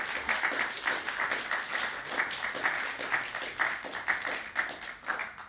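Audience applause welcoming a reader to a literary reading, light, quick clapping that stays fairly faint and steady throughout with no voices over it.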